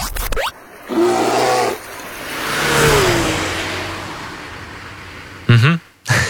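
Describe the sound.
A radio jingle built on a racing car engine at the Grobnik track and a bear roar: a low growling burst, then a loud engine rev that swells and fades, ending with a short harmonic vocal-like burst.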